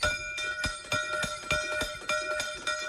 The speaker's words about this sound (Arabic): دق جرس المؤسسة تمام الساعة 8 صباحا إذانا بانطلاق الامتحان.